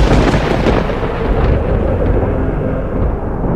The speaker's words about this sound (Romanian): Numai tunetul cânta adânc ca un proroc al pierzării.